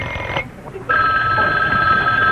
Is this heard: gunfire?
no